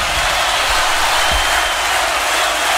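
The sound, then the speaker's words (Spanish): Audience applause for a guest performer, a dense, even wash of clapping that stays loud and steady throughout. “El aplauso de ustedes para el Negro Pelusa.”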